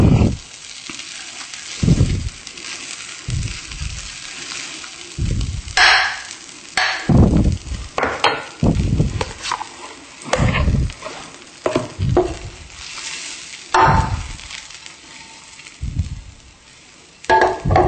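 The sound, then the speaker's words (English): Sizzling of about a tablespoon of vegan butter melting in a pan: a steady soft hiss broken by occasional louder knocks and bursts. “I'm going to start by adding about a tablespoon of butter. Vegan butter. Just around. Let that melt.”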